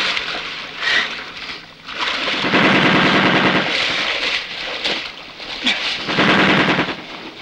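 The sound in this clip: Automatic gunfire is aimed at German soldiers: loud, rapid, rattling bursts repeat several times with short dips between volleys, with no talk over them.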